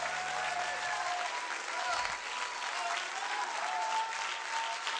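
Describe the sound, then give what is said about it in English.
A church audience applauds after a sermon ends: vigorous, sustained hand clapping throughout, dense and steady with slight swells in level. “Give the Lord a big clap. Come on, give the Lord a big clap.”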